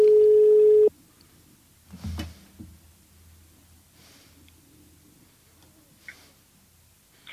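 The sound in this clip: A telephone ring tone sounds as one loud, steady electronic tone lasting under a second, then cuts off into quiet background with a few faint knocks.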